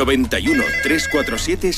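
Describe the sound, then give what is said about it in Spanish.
Telephone ringtone on a radio studio's direct line: a steady run of repeating warbling electronic tones that keeps sounding throughout, with voice-like sounds mixed in. “pues activamos teléfono del estudio”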